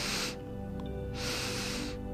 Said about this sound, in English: And now taking 2 sips of air in through the nose